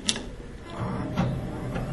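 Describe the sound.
A desktop computer powers on and starts booting from a CD in its tray: a sharp click at the start, then a steady mechanical whir of fan and drive with a few faint ticking bursts.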